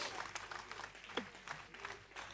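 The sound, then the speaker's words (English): A church audience claps as an offering to the Lord. The clapping is faint and uneven, with many small irregular hand strikes under a low background wash. “A super clap offering for the Lord.”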